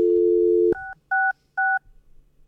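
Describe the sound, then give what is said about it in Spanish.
A steady telephone dial tone cuts off, then three short, evenly spaced dialing beeps follow as the number 113 is dialed. “¿Podemos llamar al 113?”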